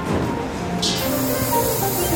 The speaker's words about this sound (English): Just putting a little nonstick spray on that.